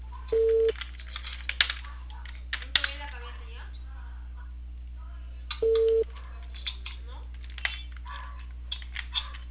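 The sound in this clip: A telephone call rings without an answer: two steady, low-pitched ringback tones sound about five seconds apart, with scattered tapping clicks and light line noise in between.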